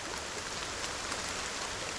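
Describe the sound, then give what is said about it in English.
Heavy rain pouring onto garden plants, including flowering currants, salmonberries, red columbine and native rhododendrons, in a garden near a river in Oregon's Cascade Mountains: a dense, even, steady hiss of falling water with no voices. “In a garden near where the Mackenzie River rushes out of Oregon's Cascade Mountains, a downpour pummels crimson-flowered currants, salmon berries, red columbine, and native rhododendrons”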